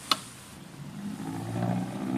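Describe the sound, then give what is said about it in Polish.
A hand-cranked gramophone with a disposable needle has its brake released. A sharp click comes first, then a faint low whirring builds as the record gathers speed. “Płyta nabiera rozpędu.”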